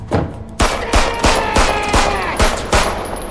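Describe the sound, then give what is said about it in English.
Gunfire rings out as a volley of sharp, loud shots in quick, fairly regular succession, each a hard crack with a brief ringing tail, and no voices are heard. “He turns in its direction and opens fire.”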